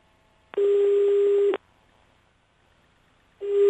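Telephone line tones while calling a number back: a steady beep lasting about a second, a pause of nearly two seconds, then the same tone starting again before the cut.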